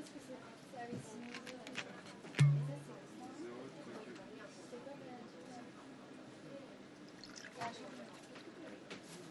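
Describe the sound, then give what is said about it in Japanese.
A drink is poured in a soft, light liquid trickle beneath ongoing conversation, with one brief louder bump early on. “自分の分だけ多く継がないでね。”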